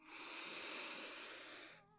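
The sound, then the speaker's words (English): A long, deep breath drawn in through the nose, heard as a soft, steady breathy hiss lasting almost two seconds, faint and alone before it tapers off. “Could you take a nice deep breath for me, baby? Just breathe through your nose”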